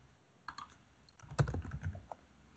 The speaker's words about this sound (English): And if I type in the same search query here, image,